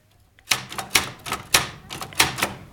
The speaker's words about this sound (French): Maintenant, j'ai une machine à écrire.